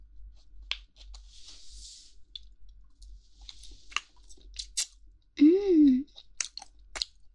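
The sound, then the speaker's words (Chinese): Someone chews chewy food up close, producing soft clicks, squishes and moist bites scattered irregularly, with a brief hummed voice sound partway through. “好吃好吃，太好吃了，好有嚼劲啊，嚼给你听听”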